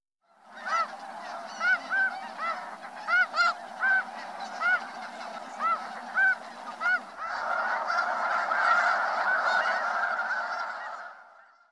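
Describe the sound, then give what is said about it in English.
Snow geese honking: a series of loud, nasal calls, then a dense, overlapping chorus from a flock that keeps going to the end. “Snow goose.”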